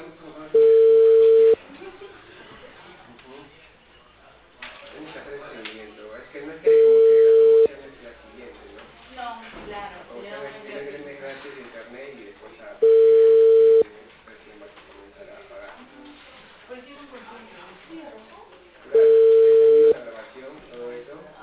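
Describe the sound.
A call on the Claro network rings out toward voicemail: four evenly spaced ringback tones, each about a second long and steady in pitch, with voices and other sound filling the gaps between rings.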